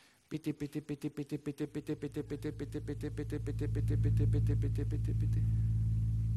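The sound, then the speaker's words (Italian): A car engine running on petrol treated with PT additive gives a rapid, even pulsing that blends into a steady, louder drone. “Aggiungendo il PT alla benzina, il motore fa questo rumore.”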